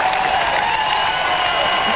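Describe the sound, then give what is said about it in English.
A stadium crowd applauds and cheers after a goal at a Hawks football match, making a steady, dense wash of clapping with no pause. “So the applause start for Will Day and continue for Jack Gunston, who sends a spear between the big sticks.”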